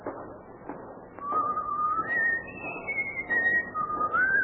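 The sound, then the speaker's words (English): A person whistles a wandering tune in clear, sustained high notes that glide up and down over a low background murmur, the whistling beginning after a short quieter lead-in. “Hear the stranger whistling.”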